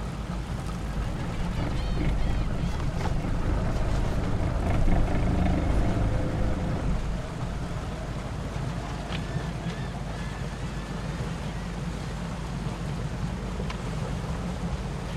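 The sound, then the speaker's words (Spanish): A noisy engine runs steadily as a loud, continuous low rumble under a wash of wind-like noise, slightly louder in the first half before settling. “¿le dan mantenimiento al motor? ¿Cuándo fue la última vez que lo revisaron? Sí, es ruidoso, por eso pregunto.”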